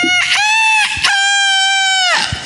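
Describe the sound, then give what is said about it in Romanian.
A rooster crows loudly in one long, bright call: a clear note that breaks briefly near the middle, then holds steady for over a second before cutting off, with a few short clicks around it. “Veți auzi chiar acum cum cântă cocoșul”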